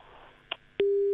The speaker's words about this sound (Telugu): So sorry call cut అయిపోయింది.